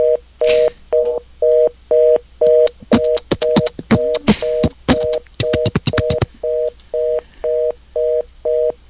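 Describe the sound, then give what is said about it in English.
Telephone line tone from a phone buried under rubble: a mid-pitched electronic beep that switches on and off in a steady rhythm, about two per second, with a stretch of rapid crackling clicks through the middle. “That's the sound of the phone underneath all the rubble of the...”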